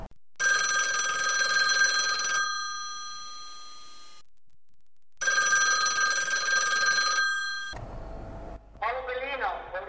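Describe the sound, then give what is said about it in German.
A telephone rings as a call is placed to a law office, sounding in two long electronic bursts of bright, steady ringing with a silent pause between; a brief voice follows after the second ring. “Bellina ruft Johann in der Kanzlei an.”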